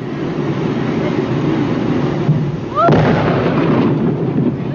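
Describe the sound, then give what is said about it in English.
A dynamite blast blows up a beached whale carcass while crowds watch from far back. A muffled boom rises out of steady, grainy noise about midway through, and a louder sustained rumble carries on after it. “The crowds of people that had come to see the whale be blown to bits were pushed back a quarter of a mile to safety. The dynamite was detonated at 3:45 p.m.”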